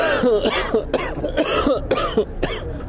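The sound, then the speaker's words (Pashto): Repeated harsh coughs from a hospital patient with breathing problems blamed on Kabul's polluted air, coming as several hoarse bursts in quick succession and heard alone. “د سالانډي او ټوخي لامل یې د کابل ککړه هوا ده”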